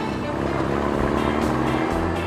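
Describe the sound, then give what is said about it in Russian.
Trucks and cars speeding along a big road, heard as a continuous loud engine drone with a steady tonal hum lasting the whole short clip, no voices. “А вот и большая дорога, и несутся по ней грузовики и автомобили.”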